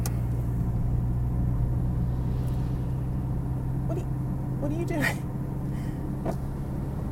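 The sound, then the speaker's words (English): Steady low engine and road rumble fills the inside of a car driving along a road, with a constant humming drone and faint voices at moments. “I'm driving. Do you want me to drive off the road?”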